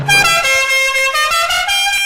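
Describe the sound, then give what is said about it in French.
A Dodge Charger's musical car horn plays a loud, brassy run of sustained notes that step from one pitch to the next, heard alone. “Rouge encore avec la Dodge Charger, la General Lee de Sheriff Fais-moi peur, dont le klaxon a traversé les âges.”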